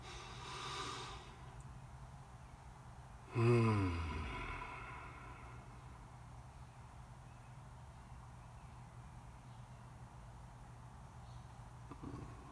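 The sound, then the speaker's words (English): A deep breath taken during a calm guided pause, heard as one loud breathy rush with a sigh-like voiced edge that fades after about a second, then near silence. “Just a breath, the simplicity of that. The inhale and the exhale.”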